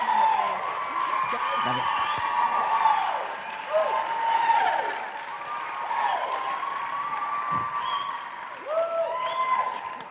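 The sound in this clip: An audience applauds and cheers to welcome two guest pastors, a steady wash of clapping that lasts throughout, threaded with rising and falling whoops and whistles from the crowd.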